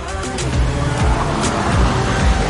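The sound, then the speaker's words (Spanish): A car pulling up in front of a plane, its low engine rumble steady and loud throughout the short stretch and blended with other continuous background sound. “van sentados en el asiento trasero de un coche. Paran ante un avión.”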